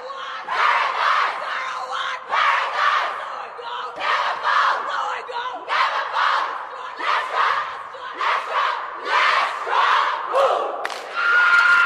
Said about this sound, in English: it's them in the sheds after the game and they have this vibrant, vibrant Fijian half in the middle of the circle just leading them into their team song, and it sounds like this.